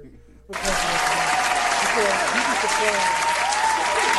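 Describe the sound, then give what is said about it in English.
Audience clapping erupts after a brief quiet moment and becomes a dense, steady wash of applause that stays loud and even to the end. “Matter of fact, we're going to clap.”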